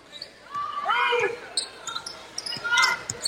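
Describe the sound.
A basketball bouncing on the court during a Princeton women's basketball game: a few sharp, quick thumps beneath a voice giving steady play-by-play commentary.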